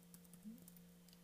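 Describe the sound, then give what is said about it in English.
Soft typing on a computer keyboard, a few light, scattered key clicks over a steady low hum, faint and without voices. “I can't even type his name.”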